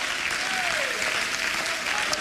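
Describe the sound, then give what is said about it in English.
An audience claps hands in church, a dense, steady patter of many hands that stays even and fairly loud for the whole two seconds. “Why don't you clap your hands and entertain the presence of the Lord here today?”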